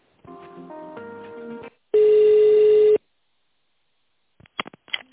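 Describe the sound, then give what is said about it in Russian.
Telephone tones as a call is transferred: a short stepped electronic melody, then a single loud, steady ring tone lasting about a second, a gap of silence, and a few brief clicks at the end. “Я вас сейчас переключу на специалиста по тендерным продажам. Секунду.”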